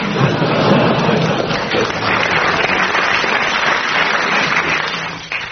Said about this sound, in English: You're getting bonuses of 10 marks each every time the audience applauses, so carry on.